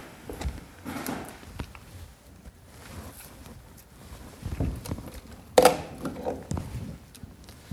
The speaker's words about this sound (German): Und ich tausche mal das Mikro.